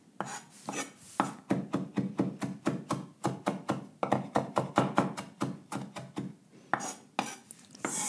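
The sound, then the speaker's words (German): Knife chopping parsley on a board: many quick, crisp knocks in a steady, even rhythm, with only a few brief pauses. “So, und jetzt noch da quer durch. Also einfach Petersilie hacken mit einem Wort.”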